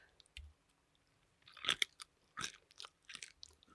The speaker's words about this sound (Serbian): Šta radiš ti? Jedem. Šta jedeš? Čuješ? Da, čujem da žvačiš, samo me zanima što.